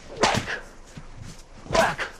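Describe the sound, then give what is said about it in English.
A whip strikes the ground with full force, giving two sharp cracks about one and a half seconds apart. The cracks are fairly faint, with a low, rough rumble between them. “Grimacing, he wields the whip with full force against the ground.”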